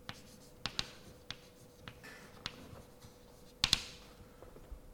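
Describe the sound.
Handwriting sounds quiet and scratchy, made up of many short, irregular ticks and taps from the pen or chalk strokes. A slightly louder cluster of strokes comes near the end, and no voice is present.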